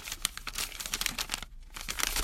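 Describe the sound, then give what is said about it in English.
Paper being shuffled, giving a quick run of dry crinkles and crackles as sheets rub together, faint and without voices. “let me shuffle this paper”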